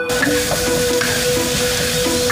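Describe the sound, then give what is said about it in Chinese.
Steady, loud sizzling hiss of chopped shiitake mushrooms and seasonings being stir-fried in locally pressed camellia oil, a dense continuous fry that holds level throughout the short stretch. “先来点我们本地自己榨的山茶油， 加上冬菇碎以及各种佐料，不停的翻炒， 再来点盐就行了。”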